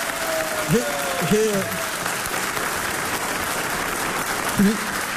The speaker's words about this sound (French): Bravo, on peut l'applaudir.